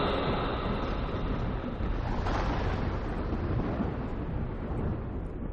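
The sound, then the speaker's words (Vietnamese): Thunder rumbling through a storm with lightning crashing: a dense, continuous roar with a rain-like hiss, broken by a sharper crash partway through. No voices. “Tiếng sấm vang đợt vọng, phích lịch nổ tung.”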